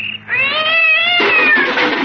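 A cat yowls in the night: one loud, drawn-out wail with a strong, tonal pitch that turns rougher and more strained toward the end, heard alone.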